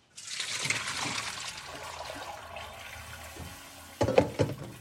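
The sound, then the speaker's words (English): Water pours from a pot of macaroni noodles into a sink in a steady, rushing splash that fades gradually over about four seconds. A few brief metallic knocks follow near the end. “empties a pot into the sink”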